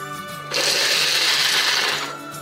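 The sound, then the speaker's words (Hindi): An electric grinder briefly crushing fox nuts (makhana) whirs with a loud, steady buzz for about a second and a half, starting abruptly and tapering off, with a faint hum before and after. “यहाँ पे मैंने मखाने लिए हुए हैं और इसको मैं थोड़ा सा क्रश करने वाली हूँ”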